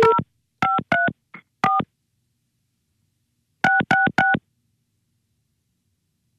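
Telephone keypad tones as a number is redialed after a busy signal: two bursts of short, clean electronic beeps, each burst a few quick tones, separated by a silent pause of about two seconds.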